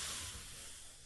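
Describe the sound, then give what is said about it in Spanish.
A voice imitating the hiss of a tyre being inflated: a steady, breathy hiss held for about a second, fairly quiet and alone. “No, ese era el ruido de que te estaba inflando la goma.”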